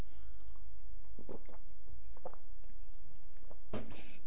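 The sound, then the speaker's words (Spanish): Someone takes a drink, with faint gulping and swallowing and a few soft mouth clicks over a steady low hiss. “Un segundo que voy a beber. Salud a todos.”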